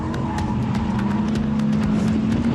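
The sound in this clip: A four-wheel-drive Audi engine drones steadily as the car slides through a long curve with stability control switched off, a loud, continuous hum with faint ticking above it and no voices.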